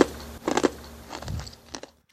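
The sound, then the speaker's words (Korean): Teeth crunch through ice during an eating session: a few sharp, crisp cracking bites and grinding chews in short bursts, with quiet gaps between them, ending in silence. “오, 이건 얼음 깨먹는 소린가? 시원하다.”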